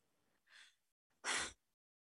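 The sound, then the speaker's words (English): A person takes two breaths alone in quiet: a short, soft breath first, then a louder, sharper and longer one a moment later. “Taking a breath.”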